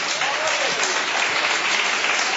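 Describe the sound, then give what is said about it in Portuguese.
A church audience claps hands firmly in praise to God, producing a dense, continuous wash of applause at a steady, fairly loud level with no pauses. “Pode sentar e bater as palmas bem forte para Deus, irmão.”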